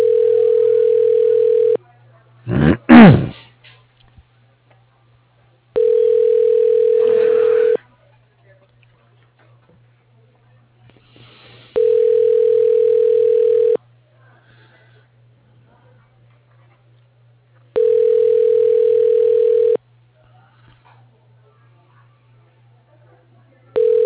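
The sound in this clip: Telephone ringback tones sound as a call is placed to an office extension, each about two seconds long and repeating at even intervals, five in all counting partial ones, with a short chirping burst near the start and a faint low hum throughout.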